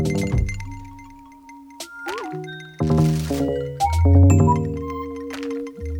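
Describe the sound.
Pristine, precise station jingle music for Radio Caso, built from sparse clean synth tones, quick pitch bends, crisp clicks and a deep low swell, each element distinct and separate.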